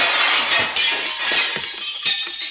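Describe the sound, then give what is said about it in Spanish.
Window glass shattering into pieces, a harsh, bright crash with scattered crackling and tinkling shards, several sharp bursts over a couple of seconds. “Entonces todos se echaron sobre la ventana. El cristal se rompió en mil pedazos”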